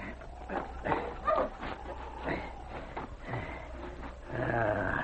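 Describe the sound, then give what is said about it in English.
Barking from a husky sled dog: a few short, gruff barks and yips spaced irregularly over a low, steady background hum. “Let's get going. Mash, you husky! Mash!”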